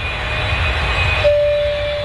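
An airplane takes off in a radio advertisement, a steady, loud engine roar with a thin high whine that gives way midway to a lower, sustained tone.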